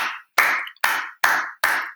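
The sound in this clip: Sharp single hand claps marking sprint ground contacts ring out in a steady series, evenly spaced about 0.4 seconds apart. Each clap is crisp and bright and decays quickly before the next.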